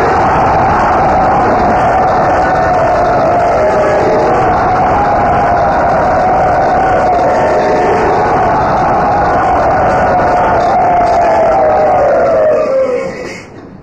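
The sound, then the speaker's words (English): A loud, enthusiastic crowd cheers to welcome a guest at a temple, a sustained massed roar of voices holding steady for over twelve seconds before fading quickly at the end. “let us all very enthusiastically, very loudly, very warmly welcome His Holiness Srila Satchinandan Maharaj to Sri Radha Gopinath Thakur.”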